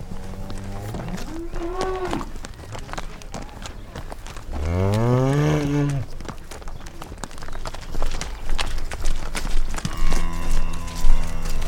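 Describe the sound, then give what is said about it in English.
Cattle lowing as the herd follows one another, with several drawn-out moos rising over a shuffle of hooves and movement that grows busier toward the end. “But they like to just follow each other. They're herd animals.”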